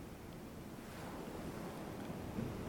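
Ocean waves roll in and draw back up a beach, a soft, steady hiss of surf that swells slightly midway and stays faint and unbroken throughout.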